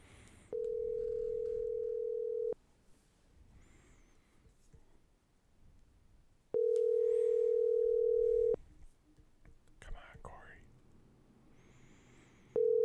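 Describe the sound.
A telephone ringback tone sounds while a call is placed, with two long, steady, even-pitched tones of about two seconds each separated by quiet gaps, and a third tone just beginning as it ends.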